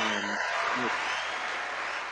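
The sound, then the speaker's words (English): A canned crowd-cheer sound effect, a broad hiss of cheering and clapping that follows a brief voice at the start and then holds steady to the end. “I had to get the cheers real quick.”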